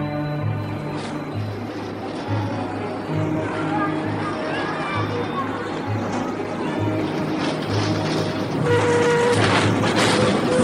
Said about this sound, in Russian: Запрыгивает в открытую дверь идущего трамвая.